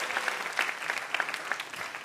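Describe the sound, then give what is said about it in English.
Studio audience applause for guests at a live quiz show comes as a steady, dense patter of many hands clapping, with a few sharper claps standing out, sustained at an even level throughout. “One more round of applause for Matt and our VIP, Michael Ian Black.”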